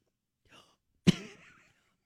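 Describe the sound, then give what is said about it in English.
A single sharp cough follows an attempt to swallow air to force a burp. A faint breathy sound comes just before it, and a short rasping tail follows. “Do you feel an air bubble in your throat? It just made me cough.”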